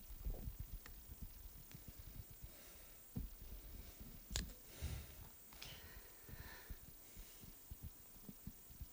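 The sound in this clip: Someone drinks a sip of water, with soft gulping thumps and faint wet clicks in an irregular series, quiet throughout.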